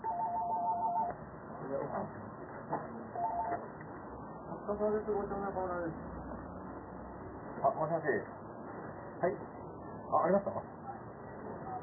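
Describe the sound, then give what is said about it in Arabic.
Telephone keypad tones dialing the police headquarters in Tokyo: a few short electronic beeps mixed with people talking throughout. “اتصل على احد في المركز الرئيسي للشرطة وقفل.”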